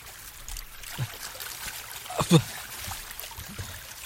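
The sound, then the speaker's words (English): Water trickling softly with a few small splashes, one louder splash near the middle, faint and low in level throughout. “But Thomas, you wake up in water.”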